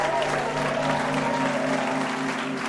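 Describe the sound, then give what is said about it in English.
Applause from a live comedy game show crowd for audience contestants, a thick and continuous wash of clapping that holds a steady, fairly loud level from start to finish. “That concludes our round of audience contestants. Let's please give them all a hand.”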